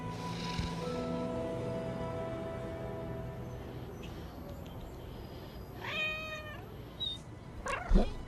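A cat meows a few times, faint and alone, with a drawn-out cry at the start followed later by a cluster of shorter, higher calls near the end.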